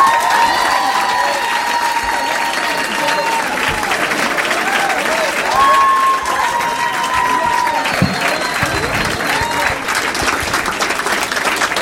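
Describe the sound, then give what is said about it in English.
An audience at a stand-up comedy show applauds and cheers for a comedian, with dense, loud clapping sustained steadily throughout and shouts rising over it. “Please make some noise for Matt Kirshen!”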